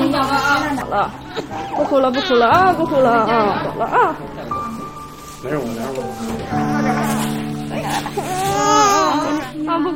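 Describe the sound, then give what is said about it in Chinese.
A baby who needs surgery cries and wails in repeated, high-pitched bursts while adults around talk to soothe the child, their voices overlapping the sobbing throughout. “不哭了啊！没事，我来。啊，不哭了！”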